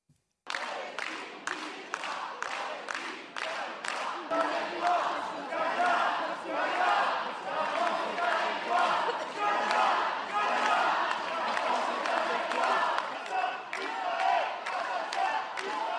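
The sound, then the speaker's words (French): Activists at a protest in France chant "Israël assassin", many voices in a loud, rhythmic chant that starts after a brief moment of quiet and keeps a steady, repeating beat throughout. “où vous allez entendre des militants crier Israël assassin, et tout ça se passe en France”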